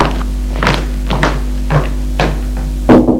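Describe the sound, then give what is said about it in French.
Knocking on a father's office door: several dull, spaced thuds at an unhurried, uneven pace, moderately loud over a steady low hum. “Il sort de sa chambre pour aller frapper au bureau de son père.”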